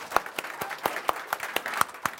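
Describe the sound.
A small group claps to welcome first-time attendees at a meeting. The claps are faint, sharp and evenly spaced, forming a steady rhythm.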